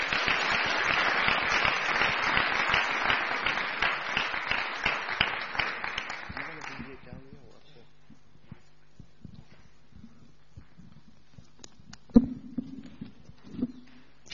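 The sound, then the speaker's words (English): A church audience applauds to welcome a speaker. Dense, lively clapping lasts about seven seconds, then stops abruptly, leaving near quiet broken by a few scattered knocks. “So let's just put our hands together and welcome Dr. Malek.”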